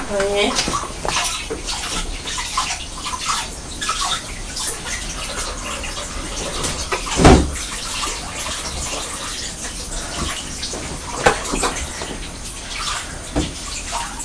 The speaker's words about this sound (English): Right, so let's wash your little hands.